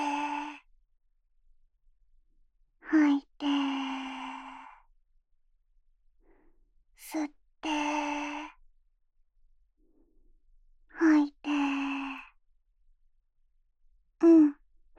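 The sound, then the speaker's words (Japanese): Slow, deep breathing during a rest break: several breaths in and out separated by long pauses. Each is a quick, sharp inhale followed by a longer, softer sighing exhale, audible and unhurried. “休憩、深呼吸しよっか。吸って”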